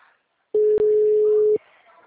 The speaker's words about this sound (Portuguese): Então, tô ligando para ele para ver.